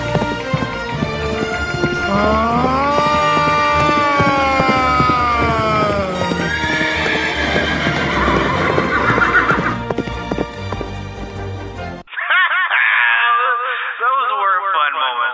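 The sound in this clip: A horse galloping and neighing as it rides off: loud, rhythmic clip-clop hoofbeats under repeated shrill whinnies, continuing in a thinner, tinny-sounding stretch near the end.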